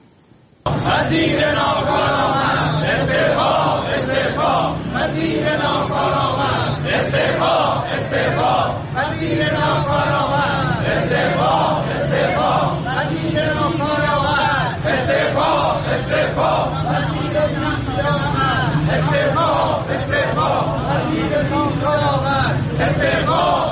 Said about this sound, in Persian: در تهران دوم اردیبهشت گروهی از معلمان و آموزگاران روبروی ساختمان وزارت آموزش و پرورش نسبت به پرداخت نشدن مطالباتشون دست به تجمع اعتراضی زدن.